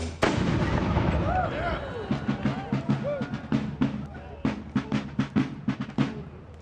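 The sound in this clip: Cannon and gunfire ring out in a dramatised battle at the Alamo mission in San Antonio, 1836: a heavy opening boom gives way to many rapid, sharp shots crackling one after another, with shouting voices mixed in.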